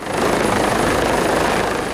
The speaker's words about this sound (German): Ein Hubschrauber landet auf dem Helideck des Umspannwerks, mitten in der Nordsee, rund 40 Kilometer nördlich von Jüst.